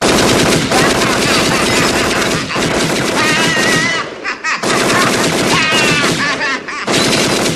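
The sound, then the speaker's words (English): A Tommy gun firing in a film scene: loud, sustained bursts of rapid automatic fire with only brief pauses between them. “All right. I believe you. But my Tommy gun don't...”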